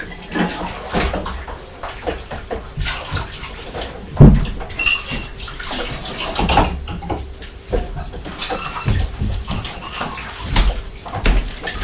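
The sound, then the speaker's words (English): Pots being washed in a sink, with running water hiss, irregular splashes and clattering clunks of cookware, including one sharper, louder knock. “Mummy's washing the pots.”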